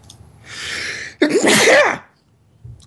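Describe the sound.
One sneeze: a drawn-in breath builds, then a loud, explosive burst that quickly fades.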